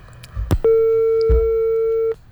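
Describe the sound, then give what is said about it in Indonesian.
A telephone busy tone sounds after a phone-in call is cut off. It is a single steady, loud electronic tone lasting about a second and a half, preceded by a couple of faint clicks. “Oke, sepertinya terputus. Dicoba lagi silakan.”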